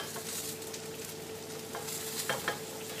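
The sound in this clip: Browned mince sizzling in a pot as it is stirred, a steady hiss of frying with a few scraping stir strokes standing out near the end; no one speaks.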